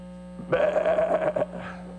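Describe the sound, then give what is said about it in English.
A human voice imitates a sheep bleating: one wavering, nasal bleat lasting about a second over a steady electrical hum. “I'm not a good interpretation of a sheep.”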